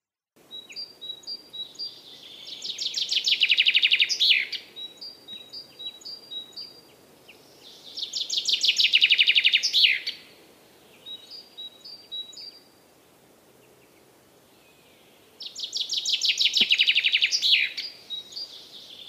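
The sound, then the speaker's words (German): A chaffinch sings three bright, loud song phrases that imitate a great spotted woodpecker, with quieter, shorter high-pitched repeated notes between the phrases. “Also es gibt solche und solche Buchfinken. Aber bei dem jetzt kommenden Beispiel, der macht diese Buntspecht-Imitation.”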